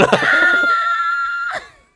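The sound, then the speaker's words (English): A person screams away from the microphone: one long, sustained, high-pitched cry that holds fairly steady for over a second, then a brief final burst before it drops to near silence. “I screamed away from the mic.”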